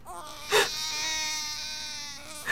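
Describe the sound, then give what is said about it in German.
A person cries in a high, drawn-out wailing sob, with a sharp sobbing breath near the start and another at the very end, heard alone and fairly faint. “Hören Sie auf zu heulen.”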